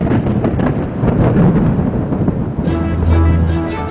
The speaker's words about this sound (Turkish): Niçin gök gürler?